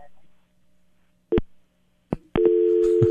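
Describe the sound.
Telephone tones on a call to a racing champion after dialing a number: two short tone bursts, then a steady, loud electronic tone that holds to the end, consistent with a busy signal.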